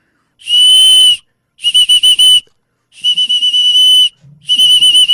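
Small metal whistle blown in four shrill, loud blasts separated by short pauses: the first a steady note, the remaining three warbling and trilled.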